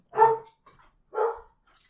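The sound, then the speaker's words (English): A dog barks twice, two loud, short barks about a second apart with near silence around them. “sorry, dog.”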